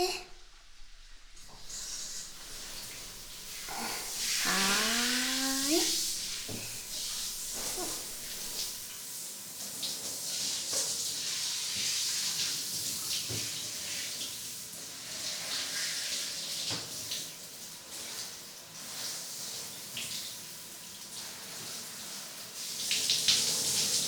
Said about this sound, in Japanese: じゃあ流しますね。